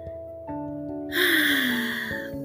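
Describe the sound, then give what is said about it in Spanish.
Deep breath in during a guided meditation: one long, airy inhale of about a second over soft, sustained background music. “Y respiro profundamente.”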